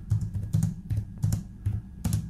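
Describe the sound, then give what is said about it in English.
Typing on a computer keyboard produces short bursts of quick plastic key clicks, about six clusters in a loose, uneven rhythm, with no other sound. “Is that why he was drumming? Yeah, well, no, that was him typing on the keyboard. He was typing, and I have to go to the bathroom.”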